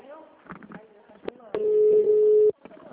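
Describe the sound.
On a phone call, a single long, steady ringing tone sounds for about a second, with people talking before and after it.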